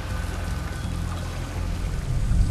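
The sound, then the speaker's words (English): Water foaming and bubbling as people wade through it in a tunnel, a steady dense rushing and fizzing wash that holds at an even level throughout without breaks. “The water foams and bubbles where they walk.”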